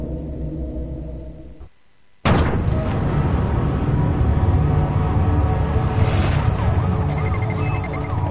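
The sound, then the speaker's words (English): A nuclear weapon explosion: a low rumble and a brief hush give way to a sudden loud blast, then a sustained heavy roar with sirens wailing and wavering over it. “Nuclear weapon has been exploded.”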